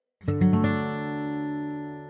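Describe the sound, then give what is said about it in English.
A major chord is strummed once on guitar in a quick, slightly spread stroke. The notes then ring out together and fade slowly. “we need to know the sound of a major chord, which sounds like this.”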